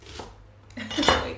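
Dishes, pots and cutlery clatter in a small kitchen in London, with soft scraping followed by a few bright clinks of metal and crockery near the end, with no voices.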